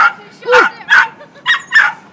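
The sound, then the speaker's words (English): A neighbour's dog gives a few sharp, high yips and barks in greeting during a street walk. The barks come in short bursts with brief gaps, loud and lively, and one bark bends up and back down in pitch. “that was a friendly greeting from a dog and a person attached to a dog”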